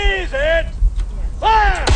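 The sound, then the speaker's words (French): Musket shots at a historical reenactment of the 1776 siege of Fort Cumberland: a couple of sharp, booming reports, with loud raised voices calling out before and between them. “Des tirs au mousquet, comme en 1776, lors du siège du Fort Cumberland”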